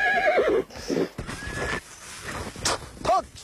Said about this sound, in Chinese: 记者和布克一同骑马，赶着羊群向秋季牧场进发。